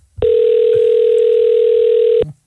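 A telephone ringing tone sounds while a call is being placed: one steady, unbroken tone of about two seconds that starts and stops cleanly, with nothing else alongside it.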